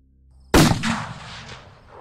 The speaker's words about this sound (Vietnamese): Hai tiếng nổ lớn vang lên